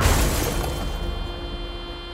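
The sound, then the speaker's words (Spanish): A car crashes into the front of a house: one loud smashing impact with shattering at the very start, then a dense rumble of debris that slowly fades over about two seconds. “No frenó, condujo hasta estrellarse contra el frente de la vivienda.”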